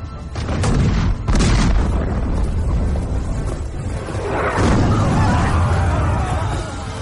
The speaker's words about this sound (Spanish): Los cañones comenzaron a sonar.